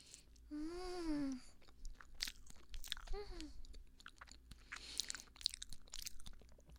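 Quiet, wet biting and chewing of durian mille-crepe cake, with soft smacking and crunchy clicks, broken by two hummed murmurs of enjoyment.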